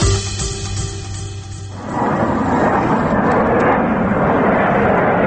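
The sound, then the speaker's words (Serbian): A Ukrainian Sukhoi Su-27 military jet manoeuvring over the Kramatorsk airfield roars in after about two seconds, a loud, broad, rushing engine roar that swells and then holds steady. “Ovo je snimak koji je obišao svet. Ukrajinski vojni avion manerviše iznad aerodroma u Kramatorsku, koji su ranije zauzele proruske snage. Ruski mediji prenose da je avion Suhoj Su-27 intervenisao,”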